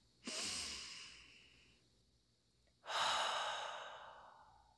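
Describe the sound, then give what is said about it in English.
Two long, deep breaths during a guided breathing exercise, each a soft, airy rush that starts abruptly and slowly fades, quiet and alone. “just really open yourself up with this breath. Okay. So one more breath.”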